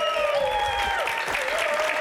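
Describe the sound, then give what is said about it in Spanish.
Steady applause from a live audience, a dense, continuous patter of clapping with faint voices mixed in, fairly even in loudness from start to finish. “no aplaudáis tanto así, así”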